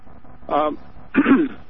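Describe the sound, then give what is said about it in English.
Throat clearing from someone with a frog in the throat and allergies: two short, rough, voiced bursts, the second louder and longer than the first. “sorry, I got a frog in my throat.”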